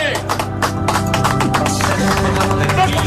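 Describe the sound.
An audience gives loud applause in a church as someone enters through the door. The clapping is dense and continuous, and voices can be heard talking over it.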